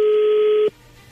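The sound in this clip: A telephone tone sounds as a call is dialed, one steady, loud pitch held for under a second before it cuts off abruptly and leaves a faint low hum.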